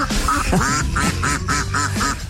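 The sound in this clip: Duck quacking sound effect in a rapid, steady series of nasal, mid-pitched quacks, clear and loud with no talk over it.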